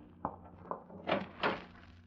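A closet door is opened with a few soft wooden clunks and rattles spread across two seconds, the loudest near the end, with no voices.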